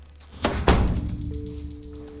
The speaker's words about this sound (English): The officer opens up a door for Harry to enter.